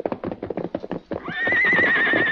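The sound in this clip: A horse's whinny, a big male horse near a corral with a colt nearby. A run of rhythmic clip-clopping hoofbeats comes first, then a loud, long whinny with a high, wavering tone that holds to the end.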